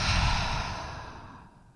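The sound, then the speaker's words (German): A deep breath during a guided breathing exercise, heard as a long airy rush of air that starts full and gradually fades over nearly two seconds, with no talking. “Und ein letztes Mal atme ein, atme aus.”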